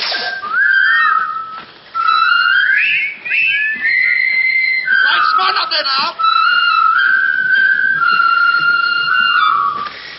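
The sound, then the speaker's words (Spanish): Bright, clear whistling carries the well-known march tune from a 1957 war film. The melody runs continuously with quick runs and held notes, loud throughout, with only a brief dip in the middle. “¿Cuántas veces hemos escuchado esta melodía y la hemos silbado?”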